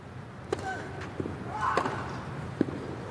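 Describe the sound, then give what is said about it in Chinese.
Tennis ball struck on Zverev's backhand return of serve in a Grand Slam men's singles match, a backhand down-the-line return ace, heard as a few sharp thwacks over a low, murmuring background. “这球反拍接发球，兹维列夫接进来了，反拍直线的一记 return ace。”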